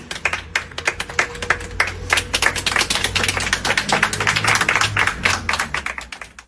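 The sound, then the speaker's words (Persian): Audience applause at a memorial gathering: sharp hand claps begin sparse, build into dense sustained clapping, then thin out at the end. “دست بزنید به افتخار خودتون.”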